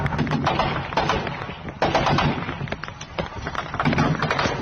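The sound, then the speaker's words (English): Automatic gunfire from tracer rounds fired by Syrian forces over a city, a dense, continuous stream of loud cracks and thuds with many rapid bursts that barely pause. “Well, those aren't rockets. Those are tracer rounds.”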